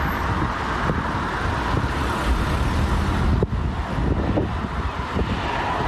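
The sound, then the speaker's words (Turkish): Dense, continuous roar of heavy holiday traffic with long queues on the TEM motorway and D100 highway at the Bolu crossing, early morning on the fourth day of Eid al-Adha. Steady engine and tyre noise with a few faint passing swells, no talk. “Burası TEM Otoyolu ve D100 Karayolu'nun Bolu geçişi. Kurban Bayramı'nın 4. gününde sabahın erken saatlerinde uzun araç kuyrukları oluştu. Trafik zaman zaman durma noktasına geldi.”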